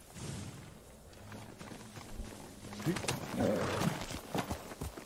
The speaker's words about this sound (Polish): Czy to jest mój koń? To nie jest mój koń. Chodź tu, kochany. Chodźże tu.